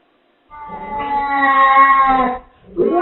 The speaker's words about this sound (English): There's cats in here. Yeah, I got to my room and there's multiple cats in the room.